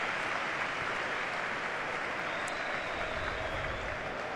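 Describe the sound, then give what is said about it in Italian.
A stadium crowd at a football match applauds a player substitution. Dense, continuous clapping blends into an even roar that holds steady from start to finish. “Applausi comunque sia per il giocatore entrato che per il giocatore sostituito.”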